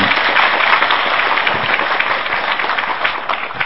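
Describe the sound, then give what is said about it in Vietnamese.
Buddhist followers in an audience applaud at a talk. The clapping is dense and sustained, fills the whole clip and keeps a steady loudness throughout. “Xin các Phật tử cho một tràng pháo tay.”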